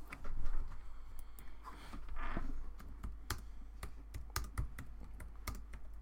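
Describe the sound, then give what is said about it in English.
Typing on a computer keyboard: many faint, irregular key clicks tapping away at an uneven pace, with no talking. “Okay, type it on here.”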